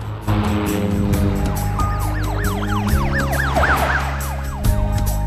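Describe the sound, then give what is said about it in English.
A police car's siren wails with rapid, repeated rising and falling sweeps as the car speeds toward an airport. The loud siren rides over a steady engine drone. “A police car speeds towards the airport.”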